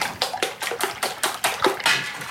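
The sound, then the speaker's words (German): Eggs are whisked for an egg broth in a steady, brisk rhythm of many scraping, splashy strokes, fairly loud, with no talk. “Jetzt müssen wir noch ein paar Eier aufschlagen. Die verquirlen.”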